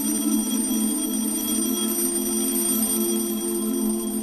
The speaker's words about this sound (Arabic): وشخص نازل من على سلم القبر بهدوء ماسك في ايده المنبه.